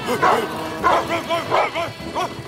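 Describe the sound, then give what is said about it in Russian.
Dogs bark at a man hanging beneath a moving carriage: several sharp, mid-pitched barks and yips come in an irregular burst, fairly loud and with no voices. “Собаки лают на висящего под каретой мужчину.”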